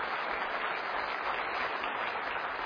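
A church audience applauds to welcome a visiting missionary family from Mauritius, a steady, even wash of clapping with no voices over it.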